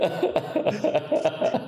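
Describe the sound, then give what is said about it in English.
A man coughing as if choking, a rapid, uneven run of many harsh, hacking coughs with barely a pause between them, fairly loud and with no talk. “Are you okay, sir? You sound like you're choking.”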